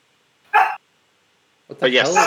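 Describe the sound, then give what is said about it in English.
A dog barks during a fantasy role-playing game session: a short sharp burst, a pause, then a longer harmonic burst of barking, moderately loud. “That's a dog barking.”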